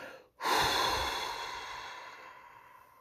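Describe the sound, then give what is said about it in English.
Slow, audible breathing during a calming guided relaxation exercise: one long, airy breath starts abruptly after a brief pause, stays steady, then gradually fades. “I want you to inhale peace and exhale anxiety.”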